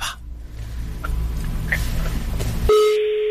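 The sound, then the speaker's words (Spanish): Telephone number being dialed: a few faint, short keypad beeps sound over a low hum, then a steady, clear line tone starts near the end. “Que estoy marcando el número que traigo de cosa del Metrobús de la empresa.”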